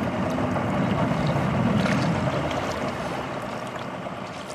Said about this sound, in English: We end our trip on a ferocious headwind crossing the miles-wide Apalachicola floodplain as it drains into the Gulf of Mexico.